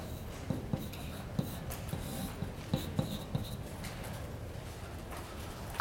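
A circuit diagram being drawn by hand: faint, irregular scratching strokes with a few sharper taps over a quiet steady background, no talk.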